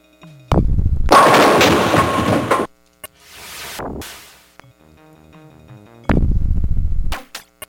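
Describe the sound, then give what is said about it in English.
A bowling ball rolls down the lane and hits the pins in a video game, on a throw that misses the strike. A loud, rumbling roll runs for about two seconds, quieter swooshing sounds follow, then another heavy rumbling crash near the end. “I thought I had a strike. I guessed where the pin was, and I guessed wrong.”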